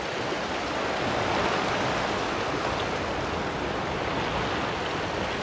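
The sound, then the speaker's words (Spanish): Continuous rushing wash of waves breaking among rocks as the tide rises, a dense, steady roar with no clear pauses between surges and no voices. “Tengo que estar a la vez atenta, claro, porque como te digo, está subiendo la marea. Con lo cual estoy caminando aquí entre estas rocas”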